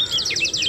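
A bird sings in the dawn chorus on a calm, misty May morning, giving a quick run of clear, high, downward-sweeping notes that repeat rapidly in one brief phrase.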